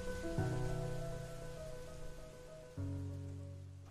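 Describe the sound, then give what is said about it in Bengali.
Steady rain falling on a footpath, a broad continuous hiss that stays moderately loud throughout. Soft sustained musical tones play underneath, with no voices. “Sayan বৃষ্টিতে ভিজতে ভিজতে ফুটপাত ধরে বাড়ির উদ্দেশ্যে রওনা দেয়।”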